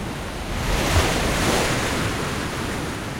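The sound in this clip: Ocean waves break at a surf spot crowded with surfers. A broad, rushing roar swells within the first second and then slowly eases, with wind rumbling against the microphone.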